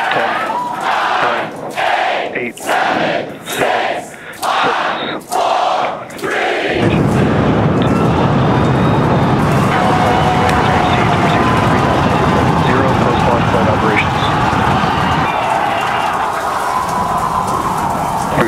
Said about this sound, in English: SpaceX's massive 120 metre tall Starship thundered off its launch pad, blasting off with twice the power of NASA's new Artemis SLS moon rocket.